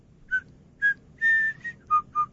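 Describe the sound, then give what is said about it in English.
A person whistles an imitation of a hockey fans' whistle cheer: six clear, loud notes in a rhythmic pattern, the third held longest and the last two pitched lower. “Devils fans responded by stealing the whistle cheer and then making it their own and then turning it into”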